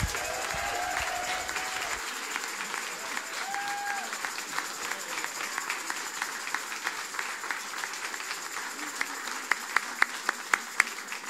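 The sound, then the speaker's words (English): An audience claps steadily as a speaker is welcomed to the stage, a dense, continuous wash of applause that holds at an even level throughout. “Give him a big hand. Welcome Nathan to the stage.”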